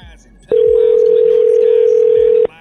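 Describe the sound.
A telephone dial tone plays before a prank call to a Comcast customer: one steady, unbroken tone lasting about two seconds. It starts and stops abruptly against faint background noise.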